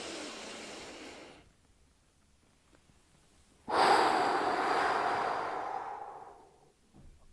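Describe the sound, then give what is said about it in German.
Deep breathing during a relaxation exercise: one long, airy breath, then a few seconds of near silence while the breath is held, then a longer, louder, steady breath that slowly fades. “Also mach auch Atemübungen, atme tief ein, halte kurz 4-5 Sekunden den Atem, atme richtig in den Brustkorb und dann einfach ausatmen.”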